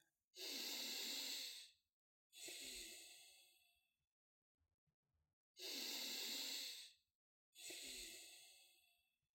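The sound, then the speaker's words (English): Deep breaths taken slowly and alone, with no talk: four long, airy rushes of breath in two pairs, each loud and full-bodied, separated by short silences with a few faint soft noises between them. “So let's start by taking a couple of deep breaths.”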